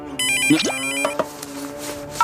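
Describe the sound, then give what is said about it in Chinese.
A telephone ringtone plays alone and loud: an electronic melody of sustained, bright notes with a quick upward-sliding tone early on, ending with a short high beep. “啊，我接个电话啊。”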